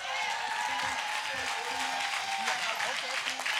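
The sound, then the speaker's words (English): Audience applause in a church as an elder is welcomed to the stage: steady, dense clapping that fills the whole stretch, with a voice speaking over it. “Come on, give God a big hand for Elder Jeff, man of God.”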